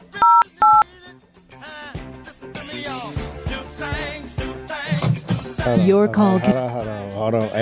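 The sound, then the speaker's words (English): Touch-tone telephone dialing: two short, sharp keypad beeps at the start, followed by a dense, busy stretch of other tonal sound that continues to the end. “So, dial a number. Hold on. I am dialing it.”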